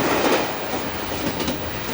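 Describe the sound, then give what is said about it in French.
A train pulled by a steam locomotive rolls along with a dense, continuous rumble and rattle of wheels on rails. The sound holds steady and loud throughout, with no voices. “Soudain, la locomotive lance un vigoureux sifflet, et le train disparaît dans la nuit.”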